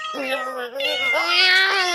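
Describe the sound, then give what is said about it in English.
A male cat gives one long, drawn-out meow that lasts about two seconds. The pitch stays fairly steady and lifts slightly in the second half. The call is loud and clear, with no talking over it. “As you can hear, he's quite a handful. As a matter of fact, he sired several litters of cats or kittens, and we're going to have them fixed soon.”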